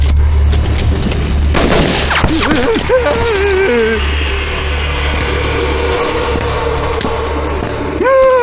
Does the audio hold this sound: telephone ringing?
no